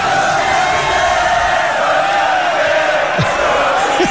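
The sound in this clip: An audience at a final cheers loudly, a continuous roar of many voices with scattered whoops and shouts rising above the steady crowd noise.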